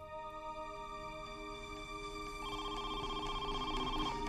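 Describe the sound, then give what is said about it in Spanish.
A telephone rings with a steady, bright electronic tone that keeps going without a pause and grows somewhat louder halfway through. No voices are heard. “Unas horas luego de que los agentes se fueran, los Aswood recibieron una llamada.”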